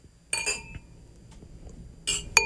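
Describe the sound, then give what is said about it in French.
Glasses clink in a toast, with bright, ringing chimes in two short bursts separated by a quiet pause. “Tchin-tchin. Santé, vous tous. Santé.”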